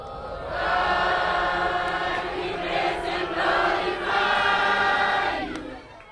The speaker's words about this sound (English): 3 years ago, this was the sound of freedom being celebrated in the world's newest country.